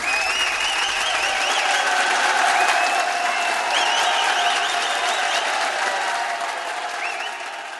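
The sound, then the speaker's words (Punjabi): An audience applauds loudly to welcome a singer onto the stage. The clapping is a dense, steady wash that holds strong and eases slightly toward the end. “ਉਹਨਾਂ ਦੀ ਆਮਦ ਦੀ ਖੁਸ਼ੀ ਵਿੱਚ ਇੱਕ ਵਾਰੀ ਭਰਮੀਏ ਜ਼ੋਰਦਾਰ ਤਾੜੀਆਂ ਮਾਰ ਦਿਓ ਬਾਈ ਜੀ।”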